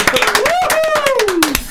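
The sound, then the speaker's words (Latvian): Loud, quick clapping from a few people in a steady rhythm, while a sustained voice slides up and then down over the claps. “Aplausi šķidri! Taisam kārtības aplausas!”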